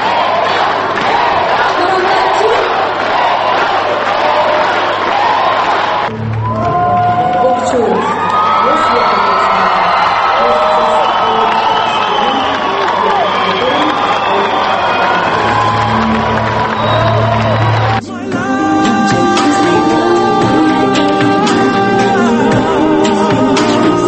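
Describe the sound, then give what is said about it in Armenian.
A crowd in a hall cheers loudly, with sustained shouts and whoops. The texture shifts abruptly twice as the noise changes in character. “Միայն դահլիճում հնչող ծափահարություններից կարելի էր դատել, թե որքան լարված է պայքարը։”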